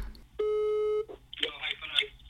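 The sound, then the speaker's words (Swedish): A phone call being placed: a single steady electronic tone lasting about half a second, followed by voices talking. “kanske jag kan ringa till min pappa och fråga.”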